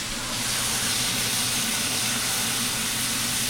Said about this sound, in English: And that's just basically, we call it deglazing. We wanna get any of the food particles that have attached themselves to the bottom of the pan.